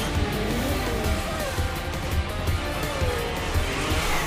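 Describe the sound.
Racing vehicles accelerating through a dark pipeline, a loud, continuous engine roar with whining and squealing tones that holds steady throughout.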